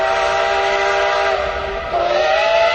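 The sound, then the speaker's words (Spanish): A steam locomotive whistle blows a loud, sustained, harmonic tone over rumbling train noise, with the tone shifting lower near the end. “fue ahogada por el terrible silbido de la locomotora”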